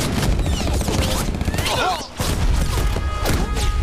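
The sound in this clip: Rapid, dense gunfire in a battle against Red Army troops. Many overlapping shots and bursts rattle continuously, with a brief lull midway, while voices shout over the fighting.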